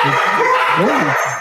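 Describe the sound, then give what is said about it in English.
Dogs barking in quick succession, loud, with short yelping barks that bend up and down in pitch, filling the whole moment. “Right, got the dogs there. He's going to sort that out, folks.”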